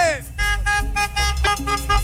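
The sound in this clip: Car horns honk from passing traffic in response to a radio host's call, with several steady, overlapping toots under a man's excited shouting.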